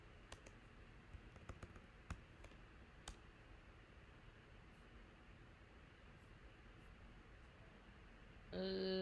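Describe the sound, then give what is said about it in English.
Faint typing on a computer keyboard: a few scattered sharp clicks in the first seconds over a steady low hiss, then only hiss until a sustained electronic tone starts at the very end. “Let me type in most liked. Hold on.”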